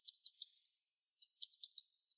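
Great tit song: bright, high chirping notes in two quick bursts with a short pause between, each burst a run of several repeated elements, heard alone.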